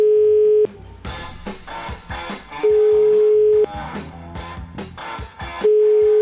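A telephone line tone plays while a call is being placed: a steady, pure mid-pitched tone sounds in three separate stretches of about a second each, with louder bursts of other clattering sound filling the gaps between them.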